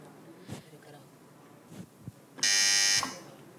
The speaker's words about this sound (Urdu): جی پہلے آپ نے مصرع صحیح سے سننا ہے، اس کے بعد بزر بجانی ہے۔